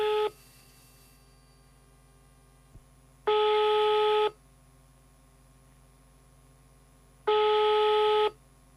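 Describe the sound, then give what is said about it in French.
Incoming-call signals cutting into a phone line: bright electronic tones come in bursts of about a second, repeating roughly every four seconds over a faint, steady line hum. “Il y a des appels qui entrent qui coupent notre communication.”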